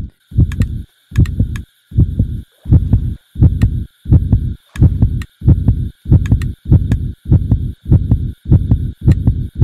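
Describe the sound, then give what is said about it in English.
A heartbeat sound effect from a modded Minecraft game thumps in a steady, even rhythm of many deep, muffled beats, each with a soft double pulse, while a thin, high, sustained tone runs underneath. “As you can hear, my heartbeat is going insane.”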